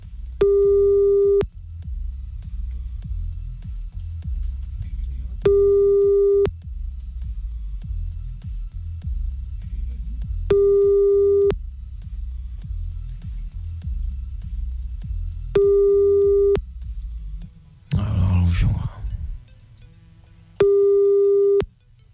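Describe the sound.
French telephone ringback tone heard while calling someone back: five steady, evenly spaced beeps, each about a second long, separated by long pauses. A low rumble runs underneath, and a brief noisy burst comes just before the last beep.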